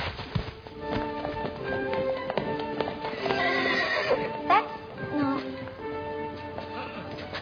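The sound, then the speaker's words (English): A teaser pony whinnies at a stud breeding shed amid clip-clopping hooves, with hoof taps scattered throughout and one sharp whinny standing out mid-clip. “This here's Thunderpants. Thunderpants is a teaser pony.”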